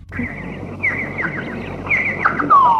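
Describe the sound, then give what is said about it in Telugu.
Birds call in a series of short, high whistles and chirps, several sliding downward in pitch, rising over a faint low background hum. “పక్షులు.”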